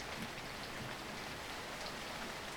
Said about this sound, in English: She turns to the door and sees the rain streaming down the window.